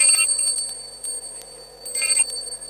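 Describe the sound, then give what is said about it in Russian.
An electric bell rings as the school's last bell, a steady high ring with two brighter bursts, one at the start and one near the end. “Раньше тех, кто его услышит, не мог. Да, мы все же отвечаем на их многочисленные заявки. И передаем последний звонок.”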